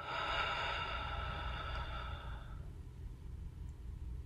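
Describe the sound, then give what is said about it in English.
A deep breath drawn in through the nose and released out through the mouth makes a soft, airy rush for about two and a half seconds, then fades to quiet low background noise. “Now take a deep breath in through the nostrils, allowing for the belly to expand open. And exhale out through the mouth.”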